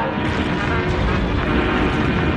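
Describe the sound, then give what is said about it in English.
Aircraft drone over Madrid during a bombing raid, a loud, dense, unbroken rumbling roar that holds steady throughout. “The drone of plane starts the panic-stricken populace rushing to shelter.”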